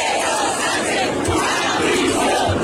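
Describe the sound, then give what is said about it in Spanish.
A protest crowd of some 50,000 in central Madrid chants against the government, a loud, dense mass of voices filling the whole stretch. “Manifestaciones en apoyo a Ceuta, pero manifestaciones sobre todo contra el gobierno, como se escuchaba en los cánticos, por ejemplo, en esta, 50.000 personas en el centro de Madrid.”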